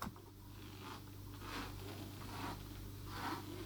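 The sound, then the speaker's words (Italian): Faint rustling and scraping as cutting patterns are handled in a tailoring workshop that makes fencing uniforms. A few soft swishes rise over a steady low hum. “Qui siamo all'interno della sartoria, dove troviamo tutti i tipi di tessuti che utilizziamo per le divise da scherma. Questi che sto prendendo in mano sono gli stampi.”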